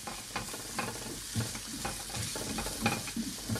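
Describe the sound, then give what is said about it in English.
Ingredients being stirred in a pan over medium-high heat: a quiet, constant sizzle with many soft, irregular scraping strokes on top. “And for the next minute of stirring, we're just trying to take the edge off the ingredients I've just added. So we're just trying to get them to, you know, soften a little bit in the pan.”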